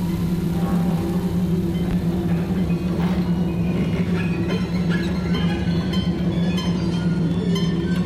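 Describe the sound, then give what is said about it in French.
Engine noise of a fishing trawler: a dense, continuous low drone with steady humming tones that holds unchanged throughout, with no voices. “Ça ressemble plus à un bruit de chalutier.”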